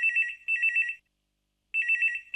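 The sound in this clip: A telephone rings for an incoming listener's phone-in call: a bright electronic trilling ring in short pulsing bursts, a pause of silence, then the ringing starts again, loud and alone with no voices.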